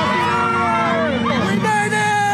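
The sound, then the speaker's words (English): A New Year's Eve crowd in Times Square cheers at the 2024 ball drop: loud, continuous hubbub with whoops and raised voices. “A giant sparkling New Year's Eve crystal ball came down to start 2024, with confetti raining down on those in Times Square who were cheering, hugging, kissing, and shouting.”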